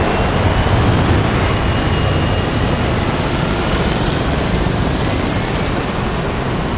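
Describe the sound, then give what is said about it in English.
Three aircraft taking off and kicking up black dust make a steady, dense roar that fills the whole stretch at an even level, with no voices. “Three aircraft take off, kicking up black dust.”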